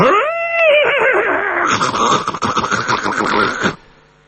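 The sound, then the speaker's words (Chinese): A horse neighs loudly outside a restaurant door: one long, strong whinny that wavers in pitch and ends abruptly. “忽然间就看这个饭店的门外一声马嘶”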